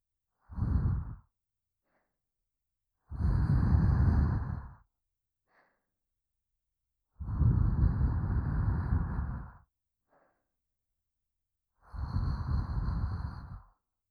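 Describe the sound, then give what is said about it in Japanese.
A person blows air onto someone to wake them in four breathy, hissing puffs separated by silent pauses. The first puff is brief and the later three each last one to two seconds. “起きねばもっとふうふうするぞ。”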